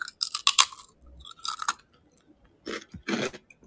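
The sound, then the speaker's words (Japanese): Crisp crunching and chewing of a Dutch senbei rice cracker, ume-kombu flavour, made by Sakata Beika: several sharp, brittle crunch bursts separated by short pauses and softer chewing, fairly quiet and with no talk. “酒田米菓、 うん、 っていうお店が作ったオランダせんべい梅昆布味、めっちゃ美味しいです。 うーん、 1枚いただいて、ちょっと音をお伝えしますね。”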